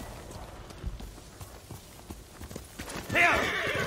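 Hooves clip-clop at a steady pace in a video game, fairly quiet, then a loud, high neigh from the horse breaks in near the end.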